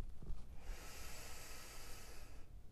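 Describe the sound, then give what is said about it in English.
A deep inhale drawn into the belly during a guided breathing meditation: one steady, airy hiss lasting about two seconds, faint and heard alone without talk. “Take one last inhale, fill up the belly all the way.”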